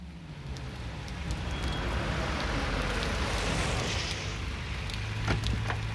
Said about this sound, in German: Plötzlich hielt ein Wagen am Bordstein.